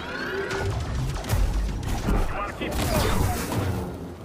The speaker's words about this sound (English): I hate machine gun.